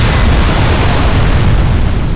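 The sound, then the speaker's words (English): Thermite grenades explode at the end of a bridge as a sedan reaches it. The result is a loud, unbroken roaring blast that stays at an even level throughout, with no separate bangs standing out. “You don't think thermite grenades are too much? I think they're just a thing. The sedan barely reached the end of the bridge before the grenades exploded.”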